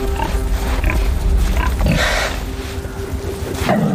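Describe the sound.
Wild boars fighting in a forest during a contest for mating rights, heard as a dense stretch of rough grunts, snorts and squeals over a steady low rumble, with no voices.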